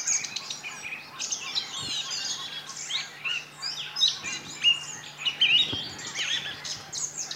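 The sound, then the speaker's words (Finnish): A song thrush sings at dawn beside a lake, delivering a continuous string of varied, bright chirping phrases. The song stays moderately quiet above a low, steady background hum. “laulurastaalla on taas asia. Niin on. Päätti jatkaa esitystä.”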